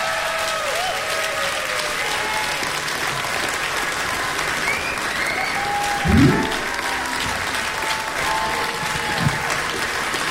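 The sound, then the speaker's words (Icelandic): An audience at a blues festival applauds a blues singer with dense, steady clapping that carries on for the whole stretch, and faint voices are mixed into it. “gefi henni gott klapp”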